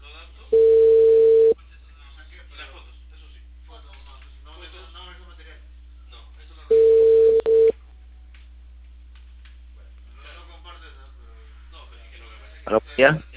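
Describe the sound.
A telephone ringing tone while placing a call to a cable company in Peru: two steady, mid-pitched one-second tones about six seconds apart, with faint talk between them and a short crackle near the end.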